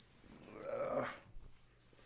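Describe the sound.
A cat growls while attacking: a single faint, raspy rumble that swells and then fades, followed by a short soft sound.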